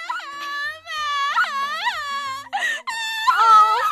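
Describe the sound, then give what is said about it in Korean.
A child cries after falling over, giving sustained high-pitched wails in several drawn-out sobbing breaths that waver up and down, loud and alone. “리나가 한 손에 손님이 주문한 음식과 음료를 들고 카드를 내려다보며 걸어오다가 그만 아이와 부딪힌다. 넘어진 아이가 운다.”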